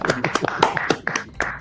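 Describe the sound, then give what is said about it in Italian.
Hands clapping in a quick series of sharp claps, given as applause for a thanked friend at the start of an Italian live stream, with voice-like tones running through the claps. “Dai, facciamogli un applauso.”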